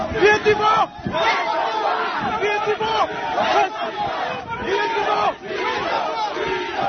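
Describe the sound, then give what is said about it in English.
Hundreds of protesters at a solidarity rally in Port Moresby for West Papuans: a loud, continuous crowd roar of chanting and shouting voices that swells in waves and dips briefly a few times. “That's the sound of hundreds of protesters in Port Moresby yesterday protesting in solidarity with West Papuans and their struggle for self-determination,”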